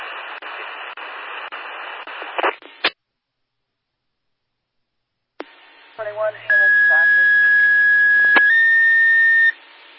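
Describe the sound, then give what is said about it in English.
Fire dispatch alert tones sound over a radio during a test. After a burst of static-laden radio talk, squelch clicks and a silent gap, a long steady tone gives way to a second, shifted tone pair, both loud and clean. “That's 9-1 testing fire tones.”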